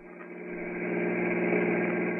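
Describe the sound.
A car engine running while driving: a steady, muffled, low drone that slowly swells louder, with no talking.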